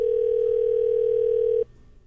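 A steady telephone tone sounds on a call that fails to connect from a line that may need 9 dialed for an outside line. One unbroken tone holds for about a second and a half, then cuts off and leaves faint low hum.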